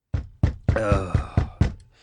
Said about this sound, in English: Knock, knock, knock. Who's there in the name of Beelzebub?